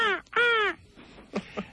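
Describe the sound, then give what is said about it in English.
A raven calling: two loud, hoarse, harmonic croaks in quick succession, followed by two shorter, fainter calls. “Well, it's a raven.”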